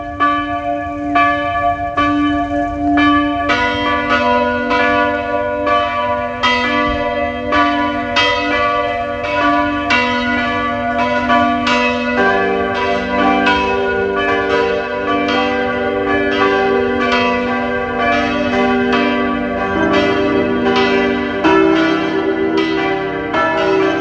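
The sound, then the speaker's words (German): Bells of the parish church in Hollenstein an der Ybbs, Lower Austria, ring at noon: a full, continuous peal of several bells with many overlapping strikes, loud and steady throughout, with no voices. “Es ist 12 Uhr. Sie hören die Glocken der Pfarrkirche Hollenstein an der Ips, Niederösterreich.”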